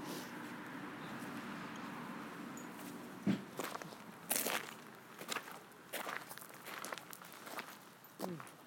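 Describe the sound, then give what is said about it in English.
Footsteps on a lawn during a walk with a dog: soft, irregular crunching steps, a few sharper ones standing out, with people talking now and then. “We're now walking on the lawn, but he won't do anything because he's already done it 3 times today.”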